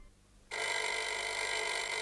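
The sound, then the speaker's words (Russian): A telephone bell in a home starts ringing abruptly after a quiet low hum and keeps up a bright, continuous trill to the end, with no voices. “когда раздался телефонный звонок.”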